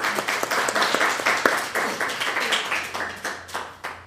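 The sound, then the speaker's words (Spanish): A class applauds a student during a Spanish lesson, many hands clapping in a quick, uneven patter at moderate loudness that thins out toward the end. “Un aplauso para ella, ¿no?”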